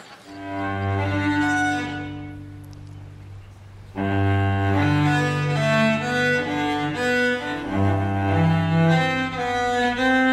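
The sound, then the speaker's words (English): Solo cello playing a passage from a Cello Suite: warm bowed notes rich in overtones, a long held tone for the first few seconds, then a louder flowing line of successive notes. “rendition of Cello Suite”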